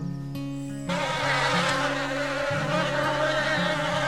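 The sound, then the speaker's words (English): Buzzing bees make a loud, continuous drone with a wavering pitch that shifts a few times, and no speech is heard. “Bees, bees, bees, bees, bees, bees, bees!”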